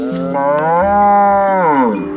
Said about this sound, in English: He and his family have raised Ankole cattle here for generations.